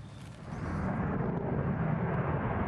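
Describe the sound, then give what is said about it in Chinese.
An F-35 fighter jet flies over the White House. Its loud, broad jet-engine roar swells during the first second and then holds as a heavy, steady rumble. “美国军方最先进的 F-35 联合攻击战斗机前所未有的飞越白宫上空”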